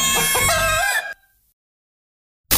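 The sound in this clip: A rooster crows once as the sound logo of a restaurant advertisement, a loud, bright, harmonic call lasting about a second. Silence follows, then another loud sound starts abruptly.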